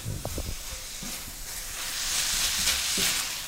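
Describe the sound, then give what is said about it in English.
Brussels sprouts sizzle in a hot pan as a mustard dressing is added and tossed through. A few soft knocks from the stirring come first, then a bright, hissing sizzle that swells louder. “I'm going to add my dressing, that mustard dressing. I'm going to toss that around.”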